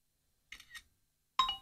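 A phone camera shutter sounds while photographing a screen. Two quick, soft clicks come first, then a brief pause, then a sharper, louder shutter snap. All three are short and quiet, with silence between them.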